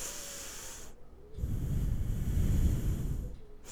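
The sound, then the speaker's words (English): A normal breath demonstrated as part of a stress-relief meditation: a single slow, soft breathy hiss that swells and then fades, with no talking. “what you have to do is you have to focus on your breathing, normal breathing pattern, like”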